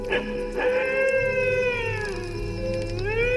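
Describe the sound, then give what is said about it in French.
A dingo howls in a long, sustained, tonal wail rich in harmonics, holding a fairly steady pitch that dips and then rises again near the end, loud and alone. “Aujourd'hui, le dingo.”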